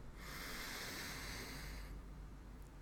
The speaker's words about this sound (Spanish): Donde sea que estés, tomate un tiempo para respirar. Inhalo.